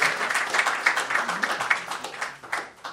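Applause from an audience welcoming a university lecturer at Boston University: dense, steady clapping that holds at an even level for about three seconds without a break.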